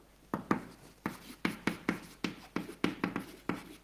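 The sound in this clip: Writing on a board during a maths lecture: many short scratchy strokes and taps in an uneven, quick rhythm, with no voices.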